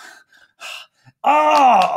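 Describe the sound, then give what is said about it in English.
A voice imitating a heavy breathing gasp: a few short, soft breathy puffs, then a loud, drawn-out voiced gasp with a strained, moaning tone that runs to the end. “And then you can see this heavy breathing and like sort of a,”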